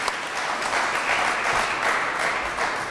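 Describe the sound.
Audience applause at a live show as two volunteers are called onstage: dense, steady clapping that holds at an even, moderately loud level for the whole stretch, with no voices over it.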